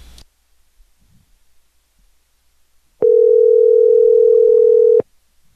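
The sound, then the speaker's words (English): A telephone dial tone sounds while a call back is being placed: one steady, unbroken tone at a single pitch that lasts about two seconds, loud and alone after near silence. “let's give him a call back since it rang. Usually it goes straight to voicemail, doesn't it?”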